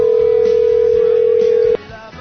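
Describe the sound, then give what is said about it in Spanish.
A telephone line tone sounds as a call is being placed: one steady, loud, unwavering pitch that holds, then cuts off abruptly, leaving only a faint low hiss. “ya preparando la línea de teléfono y haciendo esa llamadita”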